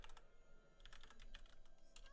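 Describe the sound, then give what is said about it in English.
Typing on a computer keyboard, with many quick, faint key clicks in an irregular rhythm and occasional bunched bursts of keystrokes. “I just want to type before I forget.”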